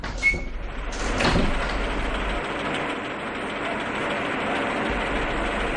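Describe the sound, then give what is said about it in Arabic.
A door being opened: a brief knock-like click near the start, then a long, rough scraping rumble that continues steadily to the end, with no talking. “افتح الباب.”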